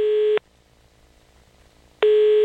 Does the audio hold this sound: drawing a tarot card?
no